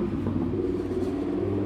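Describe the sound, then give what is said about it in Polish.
Lamborghini engine outside the Oslo opera house: a steady, low, rumbling growl that holds at an even level throughout the short stretch. “O, to co słyszycie? Z Lamborghini.”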